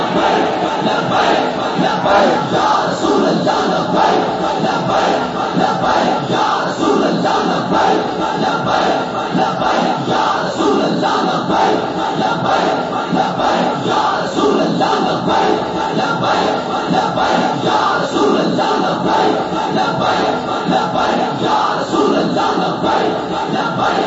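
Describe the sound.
A large crowd chants a religious Islamic slogan, a loud, dense roar of massed voices that keeps up steadily for about 24 seconds without a break.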